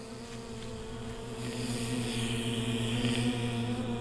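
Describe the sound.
Honeybee buzzing as it performs a figure-eight dance: a continuous, steady low drone with clear overtones, growing slightly louder partway through, with no voices.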